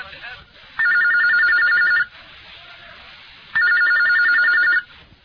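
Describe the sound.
A telephone rings before the call is answered, with two loud, high, trilling ring bursts, each a little over a second, separated by a short quiet gap.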